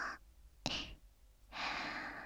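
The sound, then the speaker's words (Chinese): Rapid, heavy breathing in three airy bursts; two short breaths are followed by a longer, stronger one. “呼吸真的好急促啊。”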